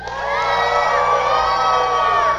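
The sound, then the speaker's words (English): Crowd of young voices cheering for a girl in flip-flops lined up for a footrace. Loud, sustained high-pitched shouting and whooping holds steady for about two seconds. “everybody that thinks Emily can win even with flip-flops on, give her a cheer”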